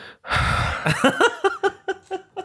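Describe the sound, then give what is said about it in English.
A person draws a deep, noisy breath in, then lets out a run of short breathy voiced bursts that come in quick succession and fade out. “I'm gonna take a deep breath. And I often go into meetings, I sit down and I go”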